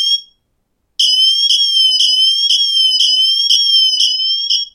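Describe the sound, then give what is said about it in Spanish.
Emergency siren played through a device's built-in loudspeaker, an emergency feature on a device that also has a depth mode for use underwater. A loud, high-pitched tone with bright harmonics follows a brief opening blip and pulses steadily about twice a second for roughly four seconds. “si damos a Sirena, bueno, pues mirar. Esto es lo que suena, ¿no? Suena mucho.”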